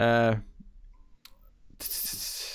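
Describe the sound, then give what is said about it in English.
A single short computer mouse click as someone clicks on a name, set in a brief pause between stretches of talking. “In fact, I'm going to click on their name and find out, because that could be interesting to know.”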